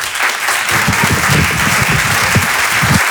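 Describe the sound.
A comedy club audience welcomes a comedian to the stage with warm applause. The many hands form a steady, fairly loud patter that holds evenly for about three seconds.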